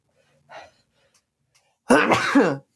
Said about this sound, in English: sorry, I keep sneezing.